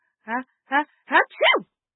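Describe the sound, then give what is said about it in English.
A voice imitates a little boy sneezing repeatedly: four short, voiced, yelping bursts in quick succession, the last two longer and sliding downward in pitch. “he sneezed 7 times.”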